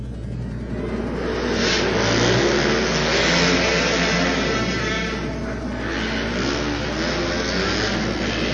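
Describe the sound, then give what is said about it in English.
Race cars roar through the final lap of an auto race, their engines blending into a loud, steady, continuous drone that swells and eases slightly without a break. “Verano and Medrano racing 1 and 2. We've seen this battle over and over again for the past several years. Here's the white flag, one lap to go.”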